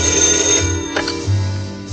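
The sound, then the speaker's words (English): A demon-shaped telephone rings with a shrill, bell-like trill that repeats in short pulses over a steady tonal background. “Cruella answers a demon-shaped phone.”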